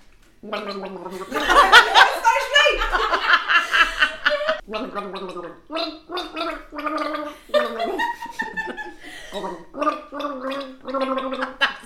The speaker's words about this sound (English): That's great gargling